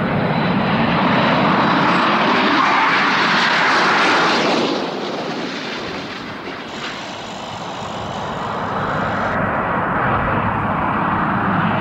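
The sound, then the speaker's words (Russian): A fixed-wing airplane coming in to land gives a loud, steady engine roar throughout. It dips in level midway, then swells again toward the end. “Самолет идет на посадку.”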